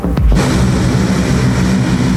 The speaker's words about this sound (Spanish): Así partió el primer vuelo de la Fuerza Aérea con destino a Venezuela.